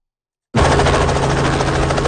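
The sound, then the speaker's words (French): Helicopter engines at an airport throttle up, cutting in abruptly after a brief silence into a loud, steady, dense roar that holds without a break to the end. “Les hélicoptères mettent les gaz pour amener les vétérans vers une nouvelle carrière.”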